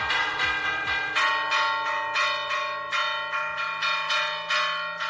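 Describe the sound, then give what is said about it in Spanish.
Church tower bells ring out over a village in La Rioja, the clock bells that mark the day. Many loud, regular strokes follow one another, each with a bright metallic ring that overlaps the next and hums on beneath them. “Este es el sonido de las campanas, que, por cierto, marca el día a día de los pueblos de La Rioja.”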